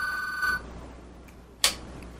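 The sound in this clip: A telephone rings with an incoming call: a short, bright electronic ring with ringing overtones, then a quiet pause and a sudden sharp click.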